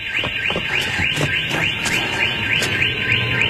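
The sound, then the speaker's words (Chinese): A car alarm blares while a car is being stolen, its warbling tone rising again and again in a fast, steady cycle that stays loud from start to finish over a low background rumble. “康探说着就去偷车，可汽车警报器响了起来。”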